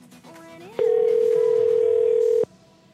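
A telephone call tone sounds while calling a cell phone: one loud, steady, sustained tone of about a second and a half, preceded and followed by faint low sounds.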